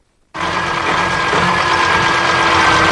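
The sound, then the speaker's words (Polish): A hydrogen-fuelled internal combustion engine, an experimental unit shown at a university mechanical engineering faculty, begins abruptly after a short silence and runs steadily with a loud, even drone and a faint tonal whine. “Tak pracuje zaprezentowany spalinowy silnik napędzany wodorem.”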